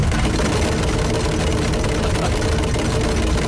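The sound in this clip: A bingo machine mixes its balls with a steady, dense whirring roar that stays even in loudness from start to finish, without pauses or distinct individual clacks.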